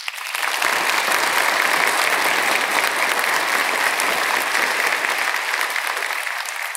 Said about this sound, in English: I would love it if you would put your hands together and give a nice, warm Redeemer welcome to Jordan Roby.